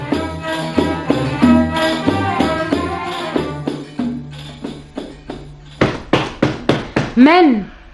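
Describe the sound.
Knocking on a door in a radio drama about the Prophet's Hijra: a quick series of loud, sharp raps after a stretch of voiced sound, then a short vocal sound at the end.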